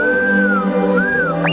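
Electronic whistling from the Star Wars droid R2-D2, long wavering tones that arc and sag, then a second arc, ending in a quick upward chirp, loud and heard alone.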